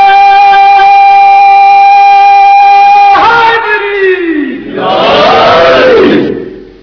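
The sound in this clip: A crowd chants a religious slogan praising Ali with a loud collective shout that falls in pitch and then surges again. It follows a single voice holding a long sustained note.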